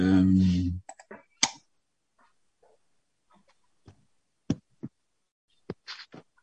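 Keyboard taps come sparsely, a few sharp clicks at uneven intervals with long quiet gaps between them, as though someone is typing slowly.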